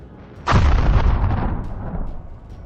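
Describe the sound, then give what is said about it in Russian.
A single massive explosion bursts in suddenly after a brief quiet lead-in, then rolls out into a long, deep rumbling decay that slowly fades. “Последовавший затем взрыв вполне мог подтвердить их опасения.”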